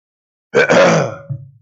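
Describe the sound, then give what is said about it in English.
A single harsh, cough-like burst of throat noise from someone about to speak at a Sunday morning church service, followed by a brief, lower throaty rasp, heard alone without talk. “And I'm going to start coughing now.”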